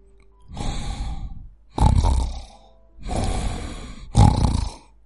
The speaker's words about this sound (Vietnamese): Trong đoạn video phát ra tiếng ngáy như bò kêu của gã người da đen to béo. Nhưng đó chỉ là tiếng ngáy giả vờ.